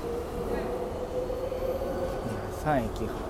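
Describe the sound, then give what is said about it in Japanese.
Ambience in a spacious, clean train station: a steady low rumble of rail traffic, with a brief squeal of train wheels near the end. “駅も広いし、綺麗だし”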